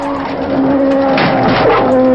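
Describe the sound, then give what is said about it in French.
A McLaren Formula One car in practice for the 1992 Mexican Grand Prix, its engine holding a steady droning tone while a rough, hissing skid noise swells across the second half. “perd le contrôle de sa McLaren et heurte violemment les rails de sécurité.”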